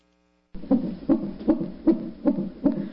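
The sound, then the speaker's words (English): Fetal heartbeat inside the womb, a steady rhythmic whooshing pulse of about six beats in under three seconds, low and thumping with a soft swish on each beat, heard alone after a short silence. “What you're hearing is a baby's heartbeat in the womb, an incredible sound.”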